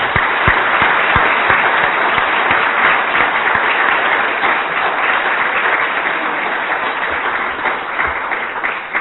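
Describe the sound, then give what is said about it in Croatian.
Audience applause for the evening's speakers at a discussion event: a dense, unbroken wash of many hands clapping loudly throughout, easing slightly near the end. “ja bih vas zamolio prije nego što zaključimo da još jednom pozdravom, odnosno aplauzom pozdravite i zahvalite mojim večerašnjim sagovornicima.”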